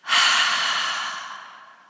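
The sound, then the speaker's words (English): A long breath pushed out through the mouth during a guided meditation breathing exercise, a single loud, airy rush that starts abruptly and slowly fades away. “And then double exhale through the mouth and release all that tension.”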